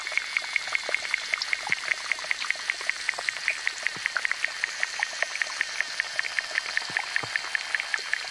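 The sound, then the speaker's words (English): Underwater insects from small ponds, in recordings made from Africa to New Mexico, produce rapid, evenly spaced clicking pulses in a steady high ticking rhythm. Occasional lower knocks sound beneath them throughout. “That's the appropriate title David Dunn gave this mix of recordings of underwater insects who inhabit small ponds from Africa to New Mexico.”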